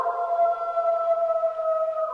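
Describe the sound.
A gray wolf howls, one long sustained note held at a nearly level mid pitch with a clear overtone, smooth and mournful throughout.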